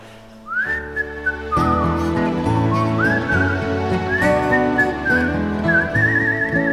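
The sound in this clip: A person whistles a tune in a clear, loud, continuous melody that glides between sustained notes and quick runs, with no talk throughout.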